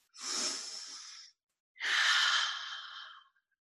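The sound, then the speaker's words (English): Deep breathing during a qigong exercise aimed at the kidneys: two long, airy, hissing breaths, each lasting over a second, heard alone with a short silence between them. “So breathe deeply into your kidneys and adrenals, rubbing your kidney area.”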